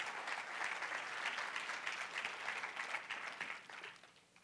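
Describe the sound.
An audience applauds prize winners at a charity fundraiser with sustained, dense clapping that holds steady for several seconds and then tapers off toward the end.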